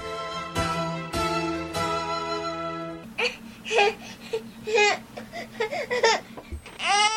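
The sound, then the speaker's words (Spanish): Baby babbling after waking up: high, bouncy coos and squeals in short irregular bursts with giggly, laugh-like inflections, coming after a few sustained tonal notes. “Ay, mi bebé ya se despertó.”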